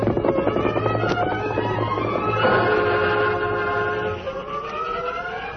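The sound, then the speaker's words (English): A westbound freight train rolling through a town, heard as loud, sustained whistle-like tones whose pitch shifts over a steady mechanical rumble. “But he came to life when the westbound freight train rolled through town.”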